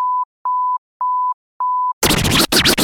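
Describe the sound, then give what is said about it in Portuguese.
Four short, evenly spaced beeps at one steady mid pitch mark a five-second time signal for broadcast stations, followed by a sudden loud burst of noisy sound. “Atenção, emissoras, para o toque de 5 segundos.”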